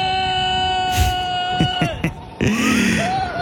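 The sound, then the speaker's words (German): Ride on the Silverstar roller coaster at Europa-Park in Rust, with rushing wind buffeting in gusty bursts and voices over it. “Der fährt da nämlich mit seinem besten Kumpel gerade eine Runde Silverstar im Europapark. Und genießt zur Abkühlung den Fahrtwind bei aktuell 30 Grad in Rust.”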